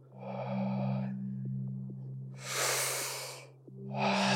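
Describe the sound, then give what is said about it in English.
Deep breathing: slow, airy inhales and exhales through the nose or mouth. Three long breath sounds, fairly loud, over a steady low hum. “So it's a deep inhale and a lighter exhalation.”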